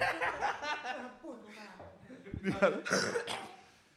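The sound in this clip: A person coughs amid talking; a few short, rough bursts break through ongoing speech and light chuckling.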